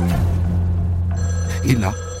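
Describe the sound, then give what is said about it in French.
A home telephone starts ringing partway through, its bright ringing tone rising over a steady low drone that runs underneath the whole time. “Et là, le téléphone se met à sonner.”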